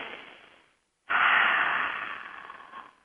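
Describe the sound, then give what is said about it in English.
A big deep breath taken during a guided visualization, heard alone as airy breath noise. A first breath fades out, then after a short silence a long, loud, breathy rush slowly tapers away. “let's do a breath first, big breath.”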